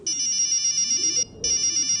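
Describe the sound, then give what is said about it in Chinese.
A mobile phone ringtone of rapid, bright electronic pulses in a steady rhythm breaks off for a moment and then resumes. It is loud and clear, with only low rumbling beneath. “唐小军的手机突然响了，他接起了电话。”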